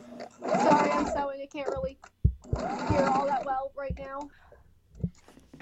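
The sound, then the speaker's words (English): A sewing machine whirs in two steady, buzzing runs of about a second each, with people talking in the gaps between them. “Sorry, I'm sewing. I can't really hear all that well right now.”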